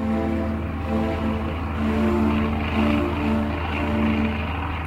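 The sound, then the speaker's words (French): A propeller airplane drones steadily while flying over the North Atlantic Ocean in 1927, a continuous low engine hum with gentle pulsing and no other sounds. “Après une journée et une nuit à bord de son avion, le pilote américain sait désormais que le temps joue en sa faveur.”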